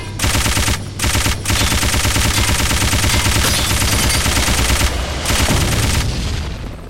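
Rapid machine-gun fire in a video game, loud and dense, with a steady stream of quick shots broken only by a few short gaps.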